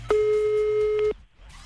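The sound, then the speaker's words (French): A steady ringback tone sounds on an outgoing telephone call: one long, even, mid-pitched beep lasting about a second, then it cuts off, leaving faint line noise. “Allez, c'est parti, on y va, on l'appelle.”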